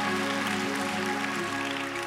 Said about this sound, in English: Now clap those hands and take your seats.